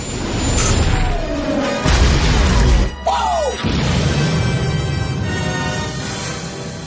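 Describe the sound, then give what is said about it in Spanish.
A TIE fighter is shot down by the Millennium Falcon's cannon and explodes in the 2015 science-fiction film Star Wars: The Force Awakens. Loud roaring whooshes frame a heavy crash-like burst, and a falling engine whine cuts through the middle. “El cañón se alinea con el TAI. Fin dispara. Derriba al caza.”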